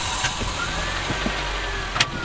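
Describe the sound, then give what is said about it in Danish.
Car engine hum as a car pulls away from a rest stop in Poland. A steady, low, even drone runs throughout, with a couple of faint, brief ticks over it. “Søren Maja Jensen siger farvel til de to soldaterveteraner, der kører fra restepladsen i Polen med en ny rute, der fører dem til Slovakiet.”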